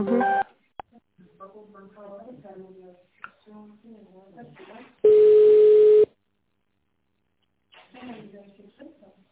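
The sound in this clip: Telephone ringback tone while a business call is transferred to management: one steady, mid-pitched tone lasting about a second, then silence, with people talking on the line before and after.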